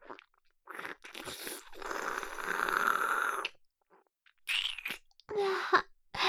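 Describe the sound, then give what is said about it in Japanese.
Someone eats with crunching bites and wet chewing, in several loud bursts separated by short pauses. “いただきまーす”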